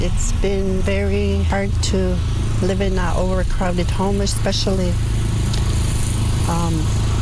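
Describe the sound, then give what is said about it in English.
A lawnmower engine runs steadily in the background, a continuous low drone beneath a person speaking throughout. “We're sorry about the lawnmower sound in the background.”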